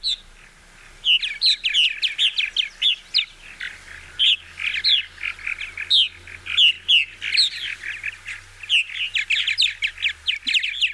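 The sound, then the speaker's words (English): A few purple martins give liquid gurgles and loud chortling calls, a rapid, busy stream of high chirps and warbles repeating in many bursts with short pauses, clear over a quiet background. “First, though, let's listen to the liquid gurgles and loud chortling of a few purple martins.”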